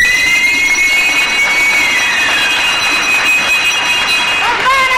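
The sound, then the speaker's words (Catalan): A bell rings to end a round of a bingo game, a sustained bright ringing with several high overtones that lasts throughout, with people talking over it. “Campana i s'acabó.”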